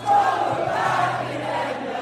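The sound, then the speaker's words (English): Concertgoers singing together at Southern Cross Station after a show: a sustained, blended chorus of many voices at moderate level, holding steady for the whole stretch. “And when the curtain fell, the crowd kicked on with their own performance at Southern Cross Station.”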